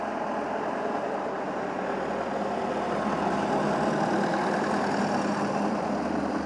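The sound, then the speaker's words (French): A village farm tractor engine running as a steady, low, even rumble that holds without change and stays fairly faint. “Ouais, non, mais ça, c'est un tracteur du village. C'est vrai paysan.”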